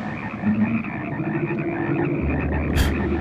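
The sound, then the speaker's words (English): Frogs croak in a movie scene set inside a house full of them, forming a loud, steady chorus of low, buzzing calls that runs without pause. “There are frogs everywhere in his house.”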